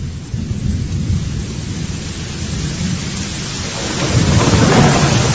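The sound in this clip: Thunder rumbles through a storm with lightning, a deep, continuous roll under a hiss of rain that swells louder toward the end, with no voices.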